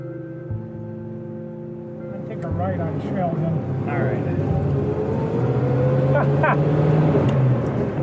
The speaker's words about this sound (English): Oh yeah, this is 60s crude, but the muffler sound good. They do. They're not bad.